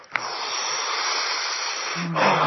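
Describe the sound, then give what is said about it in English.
A long cleansing breath taken during a relaxation breathing exercise, a steady airy hiss sustained for about two seconds before a brief change in tone at the end. “So it is ready for a cleansing breath.”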